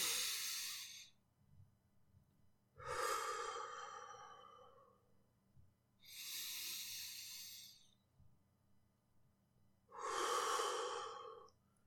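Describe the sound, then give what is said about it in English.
Deep, slow breathing, in through the nose and out through the mouth: four long, airy, hissing breaths evenly spaced with quiet gaps between, faint and with no talking. “deep breaths in through your nose, out through your mouth. Push that air out.”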